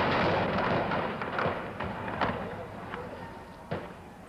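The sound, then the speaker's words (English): Rifle fire from guardsmen at a campus protest clouded with tear gas, a few sharp cracks standing out over a dense, rumbling noisy background. “Suddenly, from over the hill, there was rifle fire.”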